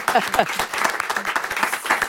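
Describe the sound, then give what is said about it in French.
Studio audience applause for a prize-winning novelist, a brief patter of clapping mixed with voices talking over it, uneven in loudness across the short stretch. “Et encore bravo, on peut l'applaudir un petit instant.”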